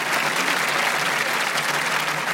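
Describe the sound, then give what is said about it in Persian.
Audience clapping at a Persian-language event: a dense, steady wash of applause from many hands that stays at an even level throughout. “یه کف قشنگ بزنیم.”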